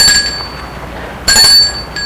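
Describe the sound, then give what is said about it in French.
Bell rung at a gate: two bright metallic rings separated by a pause, the second slightly longer, over a quiet background. “Il sonne au portail. Pas de réponse. Sonne encore une fois. Pas de réponse.”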